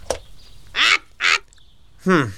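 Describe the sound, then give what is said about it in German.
A pet bird gives three harsh, nasal squawks. Each is a short, loud burst separated by quiet gaps, and the last one is the longest and drops in pitch at its end. “Halt den Schnabel, Blatty. Dieser Vogel.”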